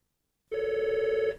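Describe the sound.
A telephone rings as a listener calls in to a radio call-in contest line. After silence, a single steady electronic ring burst with a fast trill sounds loudly for under a second and then stops abruptly.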